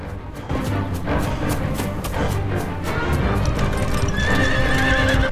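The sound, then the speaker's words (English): Horses with riders chasing through a forest pound out rapid, continuous hoofbeats that stay loud throughout, and a high whinny rings out near the end. “Boys being chased through the forest by men on horseback.”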